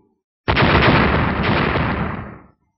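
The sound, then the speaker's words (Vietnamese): A loud explosive blast as golden spears strike a rune-covered shield: one sustained, roaring burst that starts abruptly and fades out after about two seconds. “Ba tiếng nổ lớn vang lên”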